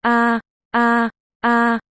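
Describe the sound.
Moaning comes from behind: three loud, steady, tonal moans, each under half a second, evenly spaced and alike in pitch, with nothing else heard.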